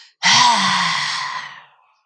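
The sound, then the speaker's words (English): A forceful exhale through the open mouth in lion's breath breathing practice: one loud, breathy rush of air with a slight voiced edge, lasting about a second and a half before it tapers off. “It's called a lion's breath.”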